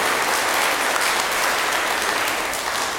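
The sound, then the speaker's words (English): Applause from an audience at a school Mass: steady, dense clapping that holds an even, fairly loud level for about three seconds, with no voices over it. “why don't you clap for him? Clap for her.”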